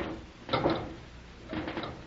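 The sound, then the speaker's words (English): A door being opened, heard as two short mechanical rattling bursts about a second apart, fairly faint and clattery. “Perhaps we haven't tried the proper doors. Well, we'll keep on trying them until somebody stops us. And here's where we try another one.”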